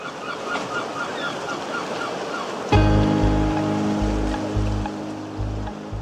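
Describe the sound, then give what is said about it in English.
Seaside waves at St. Ives wash in as a soft, steady hiss. Partway through, a loud, low honking tone cuts in and pulses repeatedly over the surf until the end. “The sounds of St. Ives. Inviting, isn't it? Lures you into those thoughts of a summer holiday.”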